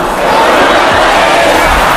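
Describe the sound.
A stadium crowd loudly chants for footballer Cucurella, the song that accompanied him at the European Championship, as a dense, continuous roar of many voices.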